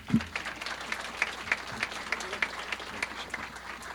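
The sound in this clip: Audience applause welcomes a speaker onto the stage at a talk, a steady patter of many hands clapping at moderate volume for about four seconds, with a few sharper individual claps standing out.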